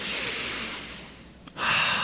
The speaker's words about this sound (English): So, let's all take a deep breath.